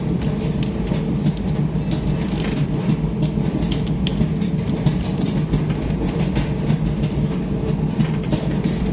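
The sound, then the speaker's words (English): A clothes dryer runs with a steady, low rumbling rattle and a continuous rhythmic clatter, like train wheels on rails. It holds evenly throughout, with no talk. “I like that dryer though. It sounds like, you know, like we're riding the rails.”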